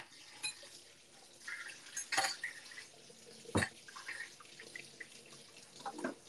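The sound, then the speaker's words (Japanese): Tap water running into a kitchen sink during cleaning, with a soft watery wash broken by a couple of sharp clanks of dishes or utensils and a few lighter knocks. “ついでにシンク洗うか。”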